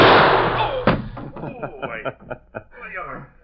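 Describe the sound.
A gunshot fired to knock a gun out of someone's hand: one loud sharp blast at the start with a decaying tail, followed by a shorter thump and then voices.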